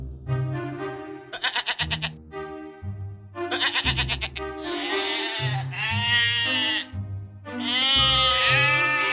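Sheep bleating in a flock that mixes spotted, striped, black and white animals. Several wavering, nasal calls sound in short bursts, then overlap into a longer, steady chorus of bleats.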